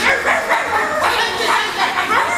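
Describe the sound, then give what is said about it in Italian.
Dogs bark at each other in a quick, overlapping exchange of yips and woofs. Many short calls run through the whole clip. “degenera poi in latrati di cani che abbaiano tra loro”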